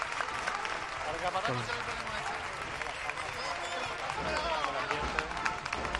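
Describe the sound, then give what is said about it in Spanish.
Sustained crowd applause greets a religious procession with acolytes as it nears a church entrance. The dense clapping stays steady and fairly loud throughout, with voices mixed into the noise. “Aplausos.”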